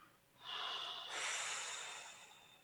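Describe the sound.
A person takes one long, slow breath, a soft airy rush of air that swells and fades, faint and alone with nothing else around it.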